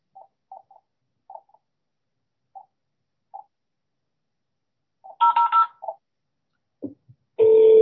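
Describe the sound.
Beeps of a number being dialed on a landline telephone keypad in speakerphone mode: a series of short, irregularly spaced tones, followed near the end by a few louder, fuller tones.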